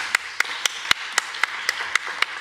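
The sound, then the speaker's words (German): Hand claps at a literary reading: nine sharp, separate claps in an even, steady rhythm, fairly faint, each standing alone against a quiet background. “Applaus nochmal. Eine warme Hand.”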